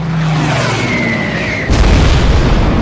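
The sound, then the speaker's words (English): A heavy boom from a bomb striking the forward deck of the ship Isokaze. One sudden low blast cuts in after a steady roar and keeps rumbling afterward. “Lieutenant Hook, still spitting mad for having lost more men against an already sunk ship, pulls his plane around and plants his last bomb right on the forward deck of that little son of a bitch Isokaze,”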